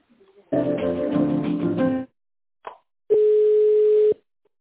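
A telephone line tone plays while a call is transferred to a secretary: a harmonic, music-like passage about a second and a half long, then a brief click, then one steady tone lasting about a second.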